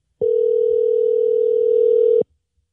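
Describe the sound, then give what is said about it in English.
A telephone dial tone plays while dialing out: one steady, unbroken electronic tone that holds for about two seconds, then cuts off, with nothing else around it. “Let's dial out to her.”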